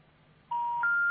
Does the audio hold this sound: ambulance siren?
no